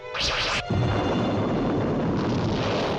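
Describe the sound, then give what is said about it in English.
A freighter ship blowing up in a sci-fi TV scene, struck by an alien craft surfacing from underwater: a brief high, zapping whoosh that gives way to a loud, sustained roaring rumble. “love that shot of the freighter blowing up”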